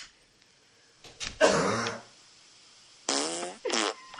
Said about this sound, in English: That fart in this video sounds like fake.